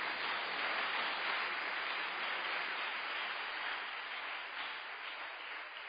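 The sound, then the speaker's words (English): A church conference audience claps their hands for the Lord in a steady, even wash of clapping, muffled in tone, that eases slightly toward the end. “Why don't you clap your hands for the Lord?”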